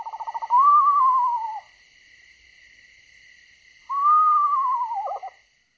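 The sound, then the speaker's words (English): An eastern screech owl gives a descending whinny, opening with a quick tremolo that slides into a wavering, falling whistle, and after a pause a second similar tremulous call follows, clear and fairly loud over a faint steady background. “That is the sound of an eastern screech owl. Has two calls, a kind of whinny and then that hooting call.”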